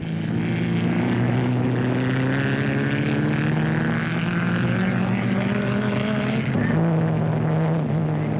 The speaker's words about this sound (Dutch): In een gewaagde eindspurt schieten de beide wagens vrijwel gelijktijdig over de finishlijn.